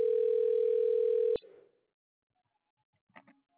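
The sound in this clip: A telephone ringback tone sounds while calling a cell phone, a steady mid-pitched tone that cuts off abruptly and gives way to near silence with a few faint, brief sounds near the end.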